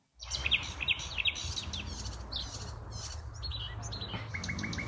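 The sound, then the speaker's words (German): A nightingale sings its territorial song in spring, at night, recorded from a window in the city. Bright, repeated chirping phrases and trills ring out over a steady, low urban rumble. “Also das ist auch ein Vogel, der sehr präsent ist, gerade jetzt im Frühjahr und auch in der Stadt. Das ist die Nachtigall, die wir selten sehen, aber doch sehr präsent ist durch ihren Reviergesang.”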